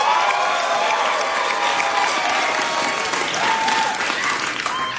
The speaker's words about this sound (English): If you're over 30, make some noise.